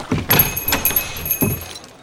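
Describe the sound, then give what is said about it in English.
Shop door being pushed open: a few brief knocks and clicks with a light metallic jingle, fairly quiet and without talk. “Kitty pushed the door open and stepped inside.”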